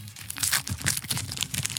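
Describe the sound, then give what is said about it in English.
A trading card pack being ripped open, with crinkly tearing of the wrapper. Several short, papery bursts of crumpling and ripping come close together, quiet and without talk. “ASMR. Next level. All right. No rules. Just rip. Let's see how many Bo Jacksons we take out of here.”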